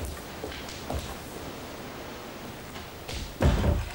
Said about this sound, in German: Wollen Sie nicht lieber die Tür zumachen? Das weht ja ganz schön rein, ja.